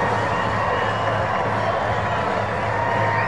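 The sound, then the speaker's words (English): Crowd noise at Riders Field as a baseball crowd cheers a run: a steady, continuous roar of many voices with no clear peaks. “Nathaniel Lowe drives in the first run of the ball game, and this crowd loves it here at Riders Field.”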